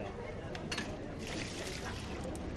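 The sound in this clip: Water from a washbasin emptied into a drain: a faint, steady rush of pouring liquid with a soft hiss and a few brighter splashes.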